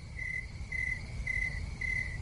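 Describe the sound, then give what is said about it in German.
Crickets chirping in four evenly spaced, high, steady trills over a low background rumble, with no voices. “Ja, Grillenzirpen.”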